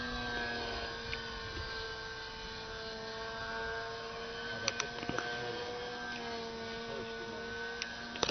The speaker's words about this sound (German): Das ist Vollgas, und was stimmt da nicht? Das ist ein Jetfighter, aber. Der fliegt ein bisschen langsam, oder? Aber laut ist er.